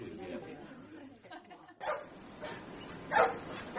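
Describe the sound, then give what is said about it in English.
A badly behaved dog barks a few short, sharp times, mixed in with people talking at a moderate level. “I'm sorry about my dog. It's very badly behaved.”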